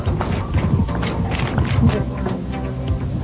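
Clip-clop hoofbeats of ponies trotting while pulling a chariot: a steady, quick rhythm of hoof strikes that continues without a break.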